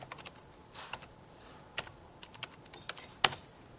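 Typing on a computer keyboard to log in on a development machine: a faint, irregular run of many light key clicks, with one louder, sharper key strike near the end.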